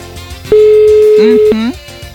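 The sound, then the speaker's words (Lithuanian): A steady, loud telephone tone holds for about a second as a radio studio places a call, and a voice breaks in near its end. “Tai mes dabar renkam telefoną ir tikėsimės, kad į mūsų skambutį atsilieps.”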